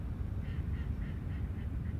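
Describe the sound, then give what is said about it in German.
A duck quacks at a small, dirty pond, giving a steady run of faint, nasal quacks over a constant low rumble. “Eine Ente macht bäh, bäh, bäh, bäh, bäh.”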